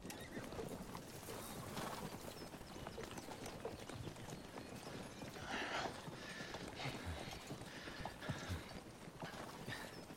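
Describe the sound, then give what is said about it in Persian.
Faint, continuous clip-clop of horses' hooves as riders travel a long way on horseback, with many even beats throughout and a brief neigh. “کی میرسیم فرویچ؟ من تا حالا این همه مدت سوار اسب نبودم.”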